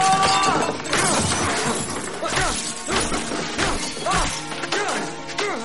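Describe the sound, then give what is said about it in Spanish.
A flowerpot is smashed against a wall in a garden shed: loud shattering crashes and sharp impacts follow one another in a dense, busy run across the whole clip. “Se apoya en un tiesto de una estantería. Lo coge y lo estrella contra la pared.”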